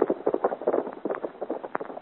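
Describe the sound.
Hooves of a rider's horse passing by make a quick, steady clip-clop of many even hits at a fairly constant loudness.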